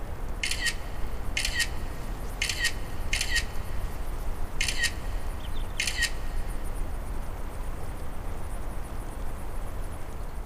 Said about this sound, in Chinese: 来，给我拍两张照片，这么久了也没拍过。